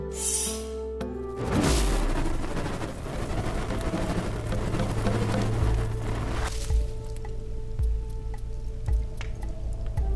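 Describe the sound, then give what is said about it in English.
A flamethrower activating: after a short tonal hum, it bursts into a loud, sustained rushing roar for several seconds, then drops back to a quieter hum with scattered clicks. “Perhaps try arson? Will? Guide. Activate flamethrower.”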